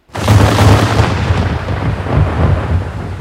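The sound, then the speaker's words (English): A cannon broadside fired from a sailing ship, a sudden heavy boom followed by a long rolling rumble that slowly decays, with a second swell of rumbling midway through. “This was the last of their gunpowder. The broadside flew through the salty air towards Vegeir's kingship.”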